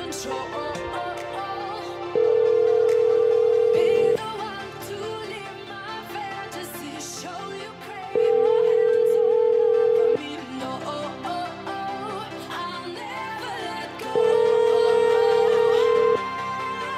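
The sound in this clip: A phone call rings out before reaching voicemail as three long, steady electronic tones of about two seconds each, evenly spaced several seconds apart, over a continuous busy background.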